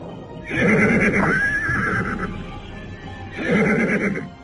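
A horse neighs twice: a long, quavering whinny that warbles for nearly two seconds, then a second loud whinny starting after a short pause and running to the end.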